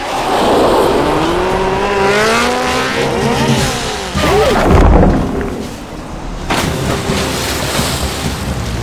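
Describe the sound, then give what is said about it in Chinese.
A motorcycle revving at full throttle while hauling a tree trunk by rope through water. The loud engine note climbs in repeated rising sweeps over a rushing wash of noise. “Michael 灵机一动，让苏克雷先屏住呼吸，自己赶紧用绳子把树和摩托绑到一起，大脚油门奋力一冲。”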